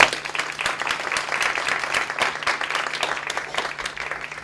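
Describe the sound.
Audience applause greeting a speaker at an evening public-service lecture: a dense, steady patter of many hands clapping that holds at a moderate level from start to finish.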